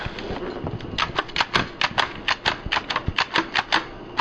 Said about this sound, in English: Okay, and that's the sound of the Jotadot as it's hanging around my neck. So it's not an intrusive sound? No, it's not an intrusive sound. It's very much like using a hole punch is the action for it.